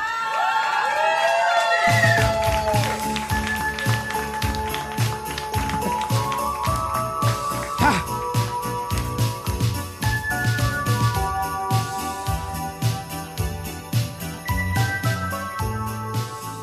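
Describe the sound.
A pop Christmas song plays loudly and without a break during a music quiz round in front of an audience, with a steady rhythmic beat, bright jingling and sustained tonal notes throughout.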